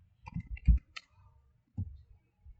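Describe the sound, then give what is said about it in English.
Computer clicks during a quick web search: a few short, sharp, faint taps in an irregular rhythm, separated by brief silences. “Quick Google search.”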